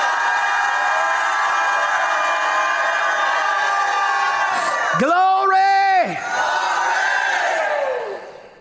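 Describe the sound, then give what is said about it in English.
An audience shouting in church: a sustained roar of many voices. Near the middle one voice cuts through in a loud, held cry that bends down at the end, then the crowd carries on and fades away. “Oh, I can hear a shout in this place.”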